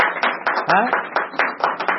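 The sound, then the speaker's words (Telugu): An audience claps in unison for the women, many sharp claps in a fast, even rhythm, with a voice briefly heard among the beats. “ఈ ఆడవాళ్ళకి ఒకసారి చప్పట్లు కొట్టాలి, మరి కొట్టాలా దా.”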